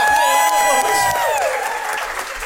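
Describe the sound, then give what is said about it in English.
A game show studio audience applauds and cheers a contestant couple after a round. A brief descending musical sting plays over loud, even clapping that slowly tapers off. “Give them a round of applause, by the way.”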